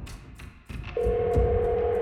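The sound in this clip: A telephone call being placed to a diocesan office in Brescia: a few short, soft bursts, then a steady, even tone that starts about halfway through and holds to the end.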